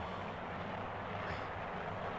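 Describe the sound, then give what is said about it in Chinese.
An agricultural drone flying over a rice field gives a steady, dense whirring drone with a low buzzing hum underneath. It is loud and unbroken from start to finish, with no voices. “是用无人机种稻的啊”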